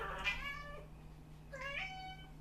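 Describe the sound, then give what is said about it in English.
A cat meows twice, two faint, tonal, drawn-out calls separated by a pause of about a second, over a low steady hum. “I believe that's a cat.”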